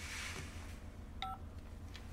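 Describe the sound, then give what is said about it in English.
Telephone keypad tones as a phone is dialed: a brief cluster of clean electronic beeps rises out of a low, steady hiss midway through, with no talking. “picks up her phone”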